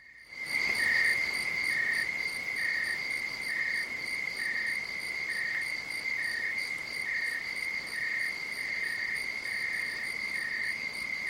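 Crickets chirp as a night-time background sound in an app. The trill is steady, loud and unbroken, with a regular pulsing rhythm throughout and no voices.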